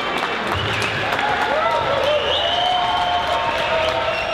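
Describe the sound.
Crowd applause and cheering at the launch party for the video game Kingdom Come Deliverance, a dense, continuous wash of clapping with voices rising through it throughout.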